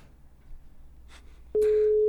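A telephone call to a guest goes unanswered: after a quiet stretch, a loud, steady line tone starts suddenly and holds unbroken to the end.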